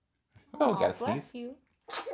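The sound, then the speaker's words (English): A woman sneezes: a drawn-out, voiced sneeze lasting about a second, followed by a brief, breathy burst of sound. “I think she smiles after she sneezes.”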